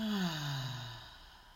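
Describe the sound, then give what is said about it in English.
A deep breath out during a guided breathing exercise, heard as a soft voiced sigh that slides downward in pitch and fades away over about a second and a half. “And we'll take a deep breath in, hold, and exhale. Breathe in, hold, and exhale.”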